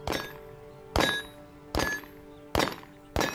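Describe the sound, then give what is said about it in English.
Large-pistol shots strike small steel targets during target practice: five sharp, evenly spaced impacts, each followed by a bright metallic ring that fades before the next. “He's wearing ear defenders and emptying a clip from a large pistol, dinging the little steel targets with every bullet.”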